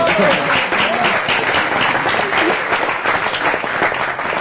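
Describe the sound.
Audience applause in a large gathering, a dense, steady wash of many hands clapping at full strength for the whole few seconds, with no pause or fade.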